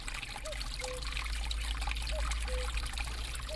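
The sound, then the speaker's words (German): Spring water trickles out from between lime-cemented pebbles in conglomerate rock: a steady, fine hiss of running water with a few small bubbling gurgles at intervals. “Zwischen dessen mit Kalk verklebten Kieseln quillt glasklares Nass hervor, das rasch ins Freie rinnt.”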